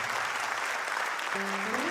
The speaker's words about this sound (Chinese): 谢谢，感谢，感谢大家热情的掌声，我拢有收到啊！